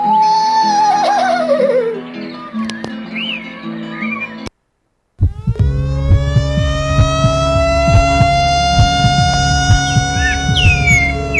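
A siren wails in a rising arc that climbs and then holds steady and loud, following a short gap of silence that comes after warbling, sliding tones.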